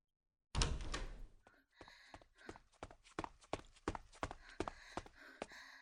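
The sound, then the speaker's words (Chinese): A door is pushed open with a sharp knock of wood, followed by a run of footsteps walking away at a steady pace. “推门朝外走去”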